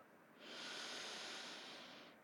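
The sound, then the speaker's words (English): A single deep breath drawn in: a soft, steady airy hiss that swells in and holds for under two seconds, then fades, heard alone. “let's take a beautiful deep breath in together.”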